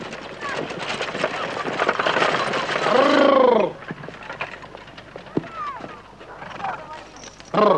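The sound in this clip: Horse hooves clip-clop as a rider approaches and arrives at a collective farm office. A busy, steady clatter is broken by a loud whinny partway through, and the hoofbeats then continue more quietly.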